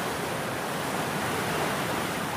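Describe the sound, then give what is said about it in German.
The Isar river rushing through Munich in front of the Bavarian state parliament building, a dense, constant roar of flowing water that stays loud and even throughout with no other sounds. “Vor dem Maximilianeum, wo der Bayerische Landtag sitzt, klingt die Isar so.”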